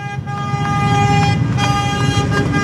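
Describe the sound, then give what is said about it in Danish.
Tractor horns honk as tractors drive past during a farmers' protest over fertilizer regulation on Christiansborg Slotsplads in Copenhagen. Loud, sustained horn tones overlap one another above a steady rumble of engines and traffic. “det, I kan høre lige nu, det er simpelthen traktorerne, der dytter, mens de kører forbi Christiansborg Slotsplads.”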